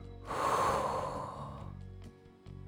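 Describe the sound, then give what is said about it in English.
A long breath is blown into open palms during a breathing exercise, a soft, breathy rush lasting about a second that fades into quiet. “Take a deep breath in. Blow your breath into your palms.”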